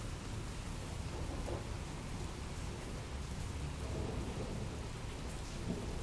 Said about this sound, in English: the sound of the rain. Ooh. They're having lots of loud thunderclaps here. This is a thunderstorm in Melbourne.